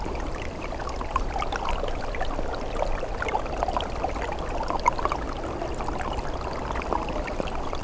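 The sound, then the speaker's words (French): A trickle of water flowing under ice: continuous soft gurgling and babbling with small bright plinks scattered through it, steady in level from start to finish, with no voices. “Un filet d'eau se fraye un passage sous la glace.”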